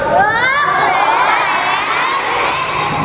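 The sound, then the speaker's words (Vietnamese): Children shouting loudly together on cue during a group cheering activity, a sustained, high-pitched crowd roar that stays loud and unbroken from start to finish. “Bây giờ bên đây chú còn nói trước thử coi, bé mà ré to thử coi nào.”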